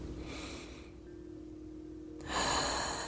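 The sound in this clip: Faint, airy breathing as a last deep breath is taken in a meditation: two soft rushes of breath separated by a pause, the second louder and longer.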